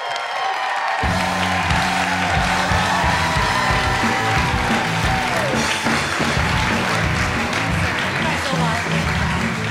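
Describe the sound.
A TV talk show studio audience applauds and cheers to welcome a guest. Dense, steady clapping runs throughout alongside loud band music.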